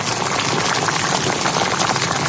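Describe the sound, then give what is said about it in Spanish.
A stew pot bubbling over the fire, giving a steady, dense simmering wash of small bubbles that runs on alone without a break. “No se me ocurre a esta hora nada más suculento y reconfortante que el chup chup de un puchero al fuego.”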